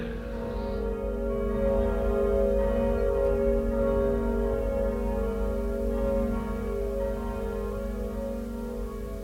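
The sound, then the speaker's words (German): Church bells ringing in Lisbon at ten in the morning on All Saints' Day, 1755, heard as a sustained, humming blend of steady ringing tones without distinct separate strikes, and no voices. “Die Glocken läuten schon. 10 Uhr.”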